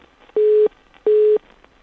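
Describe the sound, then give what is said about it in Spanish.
Two short, steady telephone call tones heard while placing a phone call, each a flat mid-pitched beep lasting about a third of a second with a brief gap between them and no talking. “Vamos a intentar de vuelta, estamos llamando a Julia”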